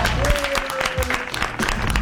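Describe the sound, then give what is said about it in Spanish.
Applause bursts out as loud, uneven clapping with scattered sharp claps, and a faint steady tone runs underneath. “Es zona Sarasa, el aplauso. ¡Bravo!”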